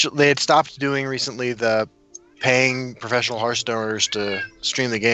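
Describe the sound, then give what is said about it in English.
A cat meows during late-night talk, its voice blending into and under continuous conversation. “I'm sorry about the cat.”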